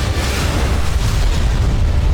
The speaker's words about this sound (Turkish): Savunma sanayinin yeni gözdesi sığınak delici Tolun P hedefi tam isabetle vurdu.